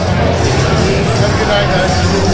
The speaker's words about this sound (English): We're just walking around the Ridgely Theater now. People are kind of clumping up in groups, trying to find my people.